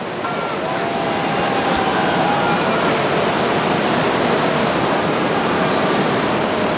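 Tidal bore waves rushing up a river make a continuous, loud roaring wash of churning water that stays steady for the whole stretch, with no distinct breaks or separate splashes.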